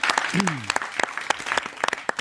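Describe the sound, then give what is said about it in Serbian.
Applause from the audience at a live studio pop concert: many quick, loud claps in a dense burst, with a brief voiced cry rising over them near the start. “Svaka čast, aplauze vam.”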